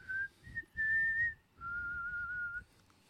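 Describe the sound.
Someone whistles a short tune, four clear held notes with the last one lower and longest, soft and airy with a little breath noise beneath.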